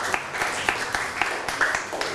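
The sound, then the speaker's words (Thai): Classroom applause for a student who has just answered a question: light, uneven clapping with a few sharper claps standing out, lasting about two seconds. “นั่งลงปรบมือให้กับเพื่อนหน่อยครับ”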